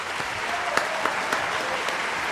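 Studio audience applause, a dense, steady wash of many hands clapping at an even level for the whole short stretch, with a few slightly sharper claps poking through.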